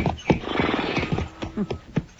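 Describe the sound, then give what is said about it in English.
Horses neigh and snort in a few short, rough bursts, mixed with irregular hoof thumps throughout. “You fellas better turn them horses around.”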